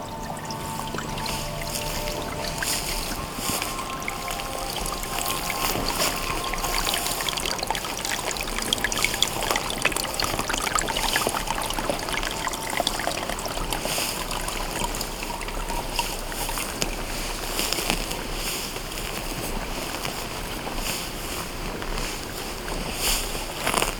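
Water trickling in a small stream, a steady, even, continuous babble and splash that stays at one level throughout, with no voices.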